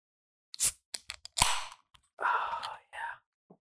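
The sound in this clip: A beer can cracks open with a sharp snap and a brief fizzing hiss, among a few small clicks and quiet breathy voice sounds.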